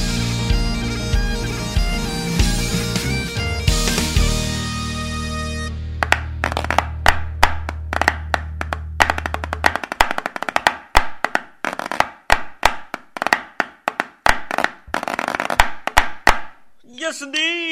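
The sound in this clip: Wooden sticks tapped together and thrown produce many sharp, dry clacks in a rapid, uneven run that follows a stretch of music.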